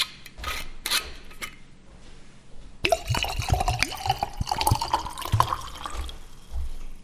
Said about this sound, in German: Ob ich mir gerade eine halbe Flasche Whisky in ein Weinglas geschenkt habe? Ja, habe ich.